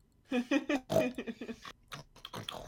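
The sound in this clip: A voice imitates wild boars smacking while they feed: a quick run of many wet, clicking smacks in an uneven rhythm, fairly loud and alone.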